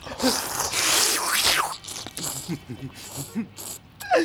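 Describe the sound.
Ramen noodles being eaten: a long, loud, noisy slurp, then softer mouth and chewing sounds broken by a few short voiced murmurs.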